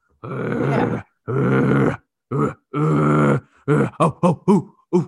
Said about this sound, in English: Was that a previous recording of a session of you know hungry rabid Pit Bulls